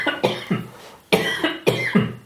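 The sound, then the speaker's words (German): A person coughing in harsh, loud bursts, several in quick succession separated by short pauses, with no talk around them. “Ich muss husten.”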